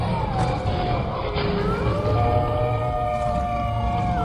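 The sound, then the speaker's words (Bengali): Many lions roaring together and a pack of jackals howling: wavering, sliding high howls rise and bend over a steady low rumble, loud and continuous throughout. “তারপরেই আরো অনেকগুলো সিংহ যেন একসঙ্গে ঘন ঘন গর্জন করতে লাগলো একদল শেয়াল চেঁচিয়ে উঠল”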